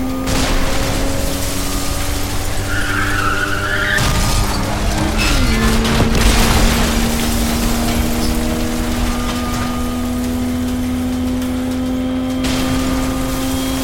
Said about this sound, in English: Our living ride cranked his speed and his brights, plowing through walls, machines, statues, and every and anything in between.